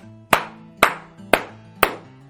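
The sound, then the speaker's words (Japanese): Four sharp hand claps struck with one palm raised slightly above the other, evenly spaced about half a second apart, each a crisp smack with a brief ringing tail, alone. “柏ではね、手と手を揃えて叩くのではなく、ちょっとだけ片方の手のひらを上に上げて、そうすると、例えば左手を上に上げるわ”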